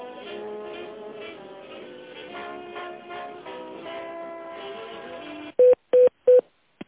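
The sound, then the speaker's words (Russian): Tones of a phone call being transferred: a soft, tuneful melody plays on the line, then stops and gives way to three short, identical beeps at the same pitch, evenly spaced and louder than the melody. “Секунду, я вас соединю сейчас с Надеждой.”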